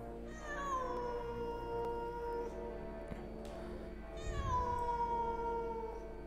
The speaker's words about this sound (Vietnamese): Đêm hôm đó, tiếng mèo kêu cứ văng vẳng kéo dài suốt cả một đêm, nghe não ruột lắm.